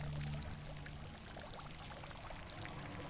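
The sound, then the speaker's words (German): Water splashing and pouring in a fountain, a steady, continuous rushing spray that holds at an even loudness throughout, with no talk. “Vor dem Brunnen bleibe ich stehen.”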